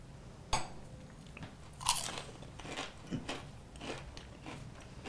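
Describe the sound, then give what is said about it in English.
A crisp bite into fried beef dumplings topped with sugar: a sharp crunch near the start and a louder one about two seconds in, followed by softer, irregular chewing crunches, all fairly faint. “Okay, so these beautiful little fried beef dumplings with some sugar on top. This is fascinating.”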